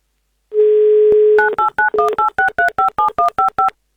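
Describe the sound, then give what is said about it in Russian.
A telephone number is dialed: a steady dial tone sounds first, then gives way to a quick, evenly paced run of many short dual-tone keypad beeps. “Ну что ж, давайте проверим сейчас на удачу и будем, собственно, звонить.”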